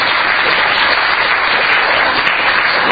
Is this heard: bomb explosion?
no